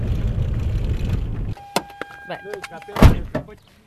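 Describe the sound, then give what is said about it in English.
Low road rumble from inside a car driving toward a gas works lasts about a second and a half. It then gives way to talk and a few sharp clicks and knocks. “So we're driving over to see the gas works.”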